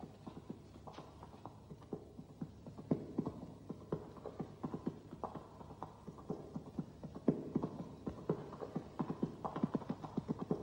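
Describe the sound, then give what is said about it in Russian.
Hoofbeats of a horse galloping away after its riders fall off, a long run of quick clip-clop beats in a steady driving rhythm, fairly loud and continuous throughout, with no voices. “конь скачет дальше”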